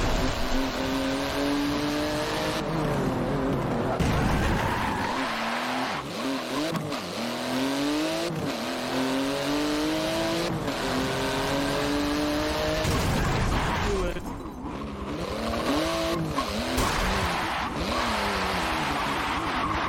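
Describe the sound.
Car engine revving while driving in a video game, its pitch sweeping up and down repeatedly as the throttle is held and released. Occasional sharp knocks cut through the steady engine drone.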